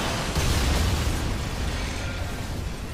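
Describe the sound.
A charged energy bomb exploding: a loud, continuous roaring blast with deep rumble fills about three seconds, easing slightly toward the end.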